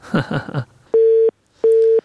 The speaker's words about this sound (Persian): متاسفانه تماس خواهر ما قطع شد و حرفایشان هم تمام بود